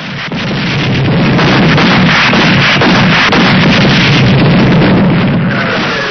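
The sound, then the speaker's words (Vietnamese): Bombs exploding nearby and anti-aircraft artillery firing at the wartime Đồng Lộc road junction in Vietnam make a dense, continuous roar of overlapping booms and bursts. It stays loud throughout, with no voices. “Tiếng bom nổ rất gần, những vệt đạn pháo cao xạ của trung đoàn 210 đỏ lừ vút lên cùng một lúc.”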